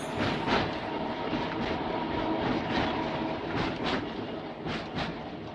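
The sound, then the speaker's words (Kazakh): Tram wheels rumble faintly from afar in a steady, continuous low roar with a soft rattling texture. The sound holds evenly throughout with no distinct beats or voices. “Алыстан трамвай доңғалақтарының дыбысы талып жетеді.”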